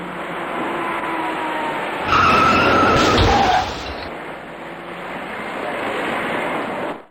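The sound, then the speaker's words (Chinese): Tires squeal as a dark passenger car skids on the inner lane of a ring-road main carriageway under a bridge, just before a three-car rear-end collision. A loud squealing burst of about two seconds rises above steady traffic noise. “驾车从后面开上来的这位深色小客司机在安全意识上明显存在着疏漏，前面的车明明已经减速停下，他却完全忽视，转眼间酿成了一起三车追尾的事故。”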